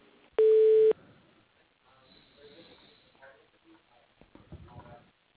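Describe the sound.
A single steady telephone line tone sounds for about half a second as a call is transferred to voicemail, followed by faint low line noise and muffled sounds.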